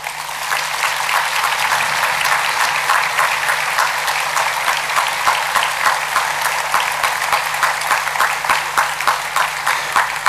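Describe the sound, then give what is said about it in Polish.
An audience gives a church orchestra and cathedral choir sustained applause after a procession. Dense, even clapping continues at a steady level for the whole stretch, without pause or speech. “O ile ci wcześniejsi mogli usłyszeć podziękowania, zaspokoiwszy się słowami, orkiestra i chór potrzebują braw.”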